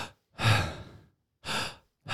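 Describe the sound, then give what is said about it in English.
Deep breaths taken by a person: a long, breathy rush of air, a pause, then a shorter breath and the start of a third, each soft and airy, separated by silence and with no talk. “Breathe. I mean, he gives you each of those breaths, so.”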